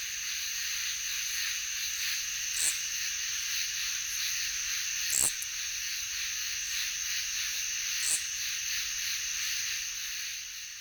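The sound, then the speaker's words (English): Insects chirping at night form a faint, steady, high-pitched buzzing chorus that runs unbroken, with a few brief clicks now and then. “At night, it seems as though there's nothing else out there but bugs.”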